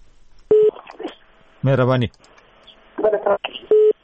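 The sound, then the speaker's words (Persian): Two short, steady telephone beeps from a line that has just been cut off, one near the start and one near the end, with voices talking in between. “متاسفانه دیدی تلفن هم قطع شد.”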